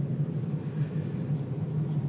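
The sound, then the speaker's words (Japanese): A car being driven, heard from inside: a steady, continuous low rumble of engine and road noise, even in level throughout, with no talking. “そそくさと車を走らせています。”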